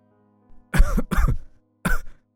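A man coughing in a long fit: a faint lead-in sound, then three harsh, loud coughs, the first two close together and the third after a short pause.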